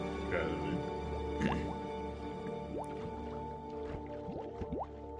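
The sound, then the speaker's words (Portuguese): Bubbles rise in water after someone dives in. Many small, quiet gurgling blips slide upward in pitch at an irregular pace over a steady low background hum. “Barulhinho de bolhas.”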